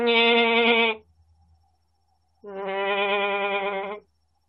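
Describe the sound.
Goats bleat in a pen holding about seven animals: two loud, wavering bleats rich in harmonics are separated by a quiet pause, and the second bleat is longer than the first.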